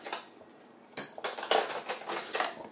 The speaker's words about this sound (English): I think I'm going to do it with a knife. I'll cut round it with a knife first.